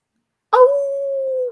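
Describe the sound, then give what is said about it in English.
A person imitates a wolf howl with one loud, sustained vocal tone. It starts abruptly and holds a steady pitch for about a second before cutting off. “you got to howl. You the lone wolf.”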